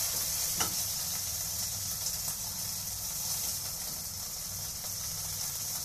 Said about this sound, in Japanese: 今鶏肉の両面を焼いてます焼き色がしっかりついてそしたら